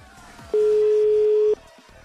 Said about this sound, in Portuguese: Terminei de digitar, agora bora ver se vai realmente atender. Tá chamando